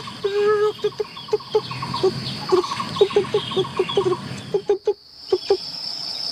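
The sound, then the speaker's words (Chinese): A single woodpecker calling loudly in a patrolled forest, giving many sharp, piercing notes in an uneven rhythm over a steady high insect-like buzz. “这个是黑维尼啄木鸟的叫声，多响亮！它就一只，但是它叫的声音比别的鸟要穿透力更强一些，更远。”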